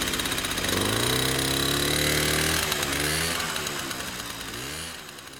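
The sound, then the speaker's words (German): A moped driving off, its small engine buzzing with a rising whine, easing off, then revving up again while the sound gradually fades toward the end. “blickten dem Moped nach, das in der Dämmerung verschwand”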